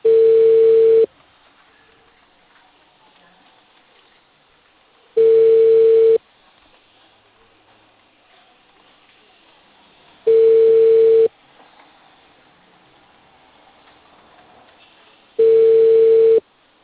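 Telephone ringback tones play while a cable company places a call to a customer: four evenly spaced, steady mid-pitched tones of about a second each, separated by long near-silent gaps with faint line hiss.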